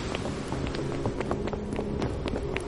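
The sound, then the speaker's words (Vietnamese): In an audio horror story, people flee in panic aboard a violently rocking ship. Their hurried running footsteps form a dense, steady patter of many quick steps over a noisy background. “Anh la lên và lập tức mọi người quay lưng bỏ chạy.”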